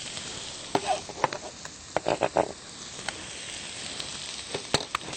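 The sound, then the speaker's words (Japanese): Burdock root sizzles as it is added to a tablespoon of hot sesame oil and stir-fried over high heat. Irregular crackles and sharp pops stand out over a quiet, steady hiss. “ごま油を大さじ1杯入れます。そしたらごぼうを入れていきます。”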